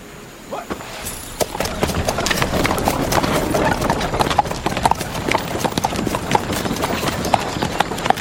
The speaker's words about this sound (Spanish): Se quedan todos viendo el carruaje alejarse.